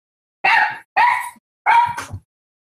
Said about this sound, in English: What's the dog's name? Whose dog was that? That's my dog